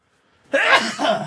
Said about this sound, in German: Und ich muss niesen.